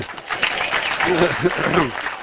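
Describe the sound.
Cheers rise from a crowd of peace activists at a public meeting, a steady wash of loud, mixed voices with no pauses across the whole stretch.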